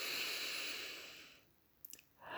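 A person's slow breath between read-aloud sentences: soft, airy breath noise fades into near silence, then a few faint clicks, and a second breath begins at the end.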